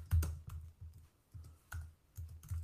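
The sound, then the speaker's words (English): Computer keyboard typing as a search query is entered, a quick run of irregular key clicks and short bursts, fairly soft and steady, with no talking. “Maybe I'll type that in there.”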